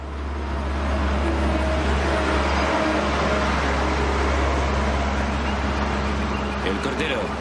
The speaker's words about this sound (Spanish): Una pala excavadora circula rápido por una cantera.